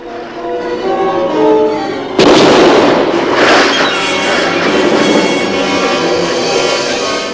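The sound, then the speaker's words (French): A rifle fired at sea monsters from a rowing boat: one sharp, loud shot cuts in over a steady droning tone, and a further burst follows soon after. “Le père les tirait au fusil.”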